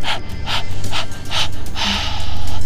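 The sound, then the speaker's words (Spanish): Soft rushing puffs of breath as someone blows warm air onto cupped hands to warm them, several short airy bursts in an uneven rhythm, the last one a little longer. “Ahora acércalas a tu boca para echarles aliento calientito”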